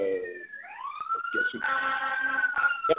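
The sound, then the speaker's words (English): Fire engine sirens wail as the trucks go by, a tone that rises and then holds high and steady with overlapping layered tones, loud throughout. “there's lots of fire engines going by right now”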